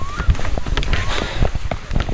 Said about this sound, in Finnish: Kävelemme puolisen kilometriä, lähinnä pitkospuita summuisena lämpimänä syysaamuna, vähän ennen 8. Maassa on jo jonkin verran koivun keltaisia lehtiä, ja pitkospuut tuntuvat siinä lenkkareiden alla vähän liukkailta.